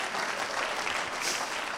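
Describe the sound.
Faint, brief applause from a church audience, a steady patter of many hands clapping with no voices standing out.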